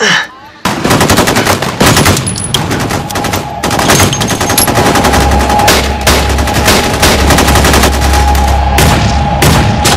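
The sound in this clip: Loud, sustained automatic gunfire in a street shootout, with bullets ripping through police cars: many rapid, sharp shots packed tightly together in continuous bursts, with heavy low rumble underneath.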